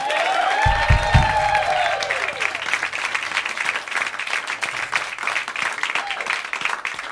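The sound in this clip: A live audience applauds and cheers for the musician Plunky Branch. Dense, sustained clapping fills the stretch, with whistles and cheers at the start.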